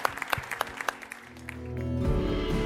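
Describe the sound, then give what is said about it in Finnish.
A church gathering claps for Jesus, starting with quick, bright handclaps and then swelling into a louder, sustained wash of sound. “Hei, taputetaan Jeesukselle.”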